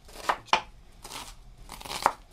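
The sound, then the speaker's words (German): A knife chops onions into small pieces on a board in a few sharp, irregular strikes, some crisp and some softer. “Die Zwiebeln werden flink in kleine Stücke geschnitten.”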